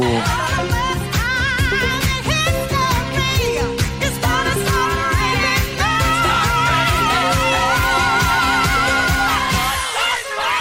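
Disco song with a steady pounding beat and a full, bright band arrangement, playing loud throughout and cutting off abruptly at the end.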